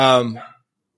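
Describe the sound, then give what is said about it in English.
A single dog barks in the background, one short harmonic yelp that fades within about half a second and leaves silence. “Sorry about my dog in the background.”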